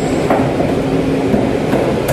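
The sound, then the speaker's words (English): An RER suburban train runs outside Paris with a loud, steady rolling rumble and a few faint metallic clanks. “His local station is handicap accessible, but catching a suburban train known here as the RER isn't easy. Finally, he's on his way.”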